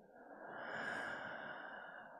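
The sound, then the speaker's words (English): One slow, drawn-out breath during a counted breathing exercise. It is faint and steady, swells a little in the middle and tapers off, with no voice over it. “she gave me a breathing exercise where you just count your breaths. So inhale, one. Exhale, two. Three.”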